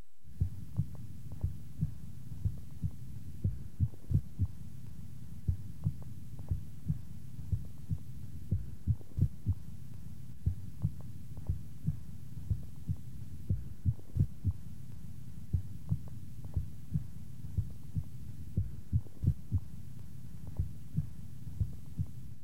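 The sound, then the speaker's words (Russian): Heart auscultation: many soft, low heartbeats in a steady, regular rhythm, interrupted by occasional premature beats (extrasystoles), each followed by a compensatory pause and a louder first heart sound. “на фоне правильного ритма слышны одиночные преждевременные сокращения сердца, после которых следует компенсаторная пауза. В момент экстрасистолы можно определить усиление первого тона по сравнению с предшествующими циклами.”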